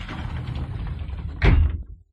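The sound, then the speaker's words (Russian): Sliding door opening into a hallway: a steady rustling rumble, then a sudden louder scraping burst near the end that quickly cuts off into silence. “как раздвинулась дверь”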